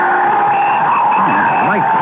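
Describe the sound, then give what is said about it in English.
A car brakes and skids on a slushy, snowy street, making a loud, continuous rushing roar with wavering squealing tones toward the end. “The brakes on that fella's car hadn't held, you'd have been killed.”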